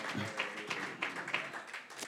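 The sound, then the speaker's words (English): A church audience claps in an even rhythm. The few claps are fairly quiet and sit over a soft background murmur. “Clap your hands.”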